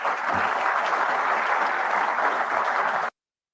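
An audience applauds to welcome a lecturer at an evening lecture. The clapping is dense, steady and loud throughout, then stops abruptly.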